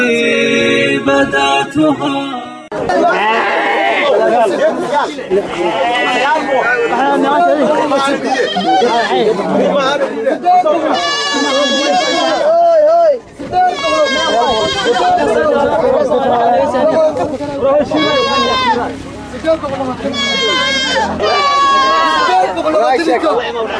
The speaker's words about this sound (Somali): sabaxanka iyo ciyada aan xoolaha aad maqleysaan waa suuq weyn oo ku yaala deegaanka